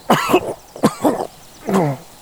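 A wounded man with a bullet lodged in his torso coughs up blood in a few short, harsh bursts with brief pauses between them. No other voices are heard.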